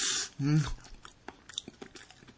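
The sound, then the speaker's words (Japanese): Chewing on a sweet, sticky food makes soft, wet clicks and smacks at a quiet level, along with a brief low vocal murmur near the start. “いくつでも食べられますね、これ。もう一ついっていいですか？”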